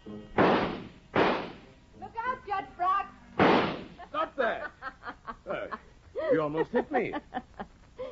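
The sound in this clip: Pistol shots from General Gabler's pistols in a radio drama: a few sharp, loud, noisy cracks spaced apart, with voices talking and chuckling between and after them.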